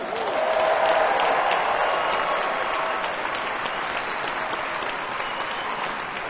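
A comedy club audience in Durham applauds to welcome a comedian to the stage. The clapping is a dense, even clatter with some crowd noise, staying loud and steady throughout.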